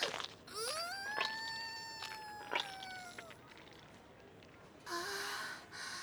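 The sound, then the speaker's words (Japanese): Sobbing cry from a distressed voice: a long, high wailing moan that bends upward and holds, broken by a few sharp breathy catches, then a shorter strained cry near the end, all over faint background noise. “かわいい。生きながら泣きじゃくる姿もますます愛おしいわ。”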